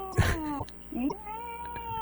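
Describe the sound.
Two cats meowing and yowling at a window: a few strained, wavering cries, the last a long drawn-out yowl that bends in pitch.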